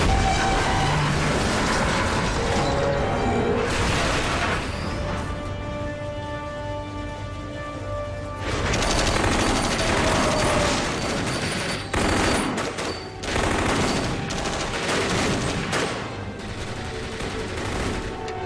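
Heavy gunfire rattles and booms loudly and almost without pause, a dense wash of overlapping shots with a few brief dips in intensity.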